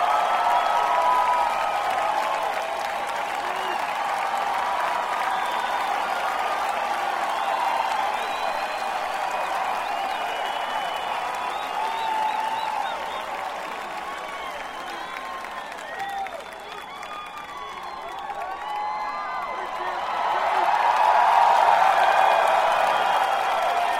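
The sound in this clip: Audience applause welcoming a Seminole chief who is about to sing: sustained, steady clapping from a crowd that holds for over twenty seconds, dips slightly, then swells again near the end.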